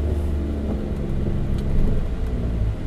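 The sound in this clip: A car drives along while detouring around a traffic jam, giving a steady, loud low engine rumble and road hum that swells slightly midway, with no talking.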